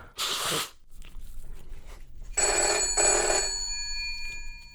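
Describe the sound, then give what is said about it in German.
A telephone rings for an incoming call. A short, noisy burst comes first, then a bright, electronic-sounding ring with sustained tones starts about halfway through and continues to the end. “Der Kultursenator geht ran, ruft an. Gehst du ran? Ich gehe ran.”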